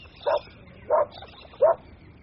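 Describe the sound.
A dog barks three times, each sharp, mid-pitched bark evenly spaced and separated by quiet pauses.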